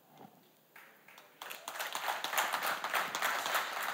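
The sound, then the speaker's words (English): Clapping from an audience during a talk about God: faint at first, then it swells into fuller, steady applause from many hands after about a second and a half. “Yay, a clappable moment, a real celebration.”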